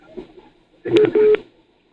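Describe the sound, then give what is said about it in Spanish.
Two short electronic telephone tones signal an incoming call on a radio phone-in line. The beeps are moderately loud and stand out against low background noise. “Ahí está entrando otra llamada.”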